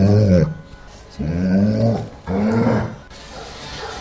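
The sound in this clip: A dog growls in three drawn-out, harmonic bursts, each arching up and then down in pitch, with short pauses between them.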